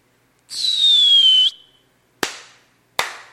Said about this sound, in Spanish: Ahí está, reventando cohetes.